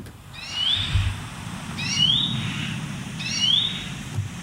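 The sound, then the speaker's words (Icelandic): A bird of unknown species gives three evenly spaced calls, each a short high rising chirping phrase, over a steady low rumble. “En þetta er Fugl dagsins hjá okkur í dag.”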